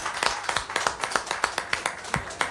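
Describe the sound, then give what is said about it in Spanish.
An audience at a tribute to a singer clapping together in time: many crisp, distinct claps in a steady, quick rhythm, each sharp hit standing out clearly above a lower wash of scattered handclaps. “Pero vamos, señores, todos juntos, el aplauso”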